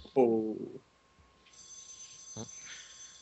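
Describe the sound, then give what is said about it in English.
A telephone rings with a bright, high tone that starts midway after a brief burst of voice and continues fairly faintly over low background noise. “Pick up the phone!”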